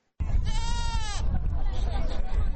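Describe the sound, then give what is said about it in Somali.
A sheep or goat gives one long, wavering bleat at a livestock market in Hargeysa where sheep, goats and camels are sold. Dense crowd chatter and bustle run underneath and continue after it. “inkastoo ay adh iyo geelba lagu kala iibsanayo, haddana dadku waxay inta badan ku urursan yihiin oo ay kala iibsanayaan waa adhi.”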